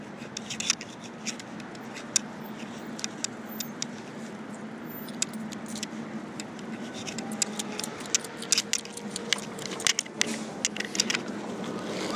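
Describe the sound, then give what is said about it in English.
A city bus pulls up to a stop. A low, steady engine rumble runs throughout, with many sharp metallic clicks and rattles scattered over it. “Here comes the bus, and I will say, here's $1.75 so I can ride on it. Here we go.”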